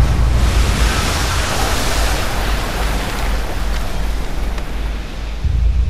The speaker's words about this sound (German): Eine 100 Kilometer lange Flutwelle rast auf die Küsten von Sumatra und Thailand zu.